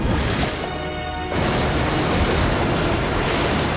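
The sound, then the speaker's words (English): Water rushes through an opened valve into a tank: a loud, dense, continuous roaring surge of churning water that fills the whole clip without pause. “Suddenly, the valve opens and the water carries Dylan and the others through into the next tank.”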